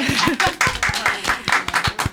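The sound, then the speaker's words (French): Hand clapping from a small group applauding themselves as a show wraps up: many brisk, irregular claps overlapping across two seconds, moderately loud, with no steady rhythm. “On peut s'applaudir si vous avez envie.”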